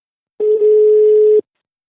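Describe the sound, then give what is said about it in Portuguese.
Telephone dial tone heard while placing a call: one steady, even tone lasting about a second, alone against silence, starting and stopping cleanly. “chegou a altura de falar com a convidada desta semana. Vou telefonar à jornalista Anabela Mata Ribeiro.”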